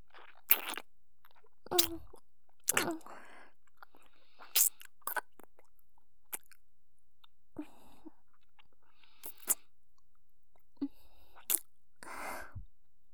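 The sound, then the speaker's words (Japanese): Wet mouth sounds of a tongue licking an ear: many soft, sticky smacks, clicks and slurps. They come in irregular bursts separated by near silence, some sharp and some drawn-out, with no speech. “私の舌がお兄ちゃんの耳を犯しちゃってる。”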